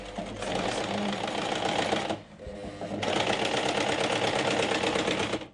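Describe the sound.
An industrial sewing machine used for sewing garments runs with a steady, fast mechanical rattle. It stops briefly once, then starts again and runs at the same even pace.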